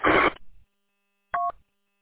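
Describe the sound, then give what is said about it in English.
A UV Pro handheld radio gives off a short burst of harsh static, then after a pause a brief electronic roger beep of a few clear, steady tones. “It's probably one of your, it's the Roger beep. Is it a Bofang? Yeah, it's the UV Pro.”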